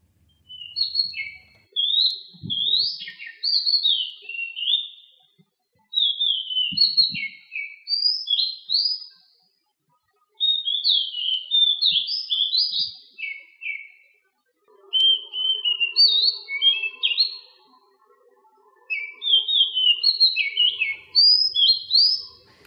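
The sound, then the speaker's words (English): Song of an adult male Oriental magpie robin recorded in Selangor, Malaysia: several rich, varied phrases of high whistled and warbled notes, each a few seconds long and separated by short pauses. “That was the song of an adult male Oriental magpie robin, or the Murai Kampung, as they're commonly known here in Malaysia.”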